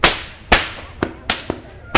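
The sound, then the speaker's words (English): A cattle whip is popped in a whip-cracking demonstration, giving several sharp, loud cracks at an uneven pace, each snapping out and dying away quickly. “They was known as crackers because they would pop the whips in that fashion and roust the cows out from under the”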